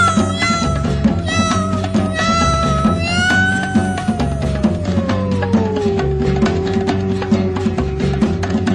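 A drawn-out, meow-like wail sliding downward in pitch rises above a busy musical backing, the cry stretching over several seconds and blending with the instruments.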